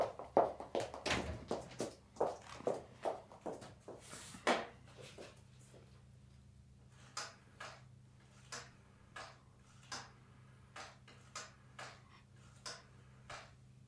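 Rotary telephone being dialed in a German radio play: many crisp mechanical ticks in quick runs, louder at first, then a steadier series of clicks over a low, constant electrical hum.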